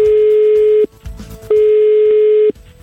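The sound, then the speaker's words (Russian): A phone's outgoing call tone plays: a steady, mid-pitched electronic tone sounds twice, each lasting about a second and separated by a short silence, with no talk. “Звоним ей.”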